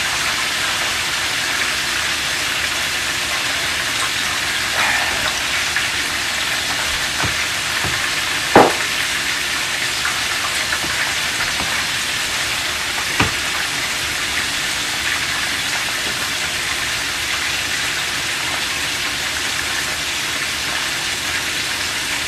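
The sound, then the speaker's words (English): Chicken frying in hot oil for a soul-food meal gives a steady, continuous sizzle with a crackling hiss. A couple of sharp clicks stand out briefly midway. “Now one thing that you want to go ahead and do when you're making your chicken is you want to cook it for about 5 to 6 minutes first. Take it out of the oil, let it sit for 5 minutes,”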